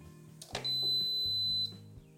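A fan-assisted kitchen oven being switched on and set to 200 degrees gives a soft click, then one steady, high electronic beep lasting about a second, over a faint low hum.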